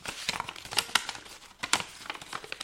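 Paper crinkles and rustles as a question card is pulled from a paper envelope, giving a quiet string of sharp, irregular crackles and scratches with no talk.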